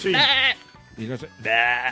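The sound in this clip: A voice imitates a goat bleating with two loud, quavering, high-pitched bleats. A shorter, lower vocal sound comes between them.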